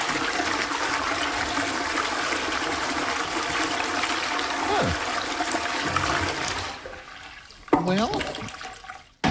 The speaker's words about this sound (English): It then extends a disposal arm, completely flushing both the solid and liquid waste away. Immediately after, it runs an intensive self-cleaning and sanitizing cycle on the bowl